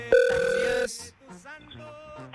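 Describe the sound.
A telephone call comes through on the line with one steady, loud electronic tone lasting under a second, followed by softer voice-like sounds.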